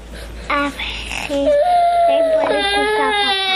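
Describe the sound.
A young child cries at school, with wavering, high-pitched sobbing whimpers that break into a loud, sustained wail.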